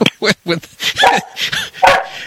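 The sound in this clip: A dog barks in a run of many sharp, harmonic barks mixed with higher yips and whimpering tones, loud and closely spaced with brief gaps.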